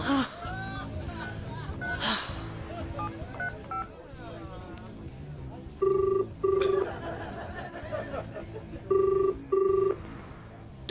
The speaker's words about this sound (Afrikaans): Ek gaan die polisie bel.